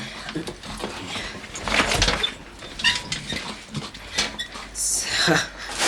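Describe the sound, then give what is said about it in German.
A hatch being opened in an audio drama, heard as clanking, scraping mechanical noises in a few uneven bursts, with voices alongside. “Ah, hier ist eine Luke. Ich werde sie mal aufmachen.”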